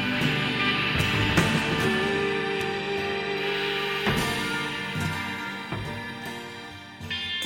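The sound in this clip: Rock music from a 1970s Memphis band: a full, dense band mix with regular drum hits and sustained instruments, steady in loudness throughout.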